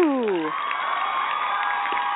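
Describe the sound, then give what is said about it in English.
A live studio audience at a game show cheers and applauds continuously. A falling whoop opens the sound, and a steady wash of clapping and shouts follows. “And our live studio audience. Yes, they are wonderful. They are alive, yes.”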